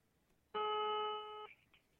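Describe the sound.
A telephone ringback tone sounds while a call is being placed: a single clear electronic ring of about one second, followed by a faint trailing blip, with no talk.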